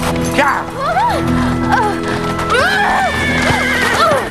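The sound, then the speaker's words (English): A horse stopping suddenly, giving several loud whinnies and neighs over the clatter of hooves. “The horse stops suddenly and Elizabeth falls off.”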